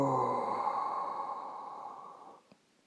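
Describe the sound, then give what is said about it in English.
A deep breath slowly exhaled during a breathing exercise, a soft airy breath that fades gradually over a couple of seconds and ends in a faint click. “Taking a deep inhalation, exhaling,”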